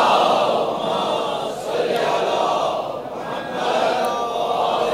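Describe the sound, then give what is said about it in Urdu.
An audience recites salawat on Muhammad together, a loud, continuous crowd chant that swells and eases in a few waves. “درود بھیجے محمد آل محمد پر۔”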